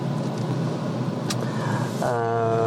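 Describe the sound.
A car drives into a prison colony, its engine a steady low rumble, broken midway by a brief sharp click; near the end a higher whining tone with layered harmonics joins in.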